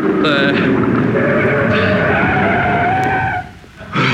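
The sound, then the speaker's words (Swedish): Tires screech as a car brakes hard to a stop at a city curb, a loud, sustained skidding squeal that drops away sharply near the end before a brief final burst of noise. “Bromsa nu då. Bromsa. Bromsa.”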